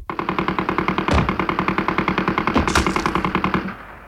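Rapid automatic gunfire aimed at a hare in a dark cave. It is one loud, continuous burst of many fast, evenly spaced shots lasting about four seconds before it stops abruptly.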